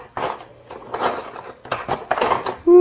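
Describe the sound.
Metal cutlery clatters and jangles as someone rummages through it for a little spoon. The rattling comes in about four short bursts with brief pauses between them.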